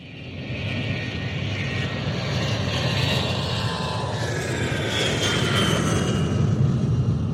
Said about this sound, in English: That's the sound of a Boeing 747 taking off.